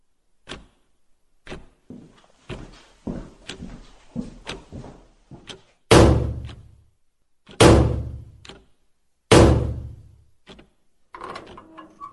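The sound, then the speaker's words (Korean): Lock being forced open and a door opening: a run of small clicks and knocks, then three heavy booming thuds that ring and fade, and a few quieter rattles at the end. “누군가 잠금 장치를 강제로 열고 있었다. 곧 문이 열렸다.”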